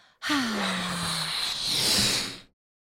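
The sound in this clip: A slow, deep breath out after holding air during a breathing exercise: an airy rush of about two seconds, with a soft voiced sigh at the start, then fading away.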